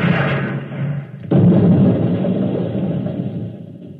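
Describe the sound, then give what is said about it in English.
Volley of gunfire from an honor guard firing explosive bullets, heard as one sudden loud blast that gives way to a dense, rumbling roar that fades only slowly. “10 soldiers in the honor guard instantaneously fired their weapons into George of Xanthar. Apparently, explosive bullets have blown him to smithereens.”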